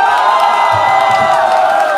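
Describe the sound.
An audience cheers and whoops for a performer at a singer's fan meet-up, a loud, sustained chorus of high voices lasting throughout, with little clapping evident.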